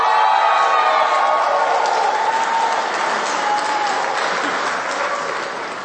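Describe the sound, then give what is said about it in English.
Audience applause for the performing group Te Whanawhana at Parliament: dense, steady clapping, loud at first and slowly fading toward the end. “please give it up for Te Whanawhana.”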